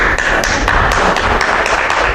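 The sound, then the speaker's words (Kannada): A single person clapping alone during a Katha Upanishad discourse, many sharp claps at an even pace, fairly loud and steady throughout. “ಯಾರು ಚಪ್ಪಾಳೆ ಹಾಕಿದ್ದು ಒಬ್ಬರೇನಾ ಒಬ್ಬರೇ ಚಪ್ಪಾಳೆ”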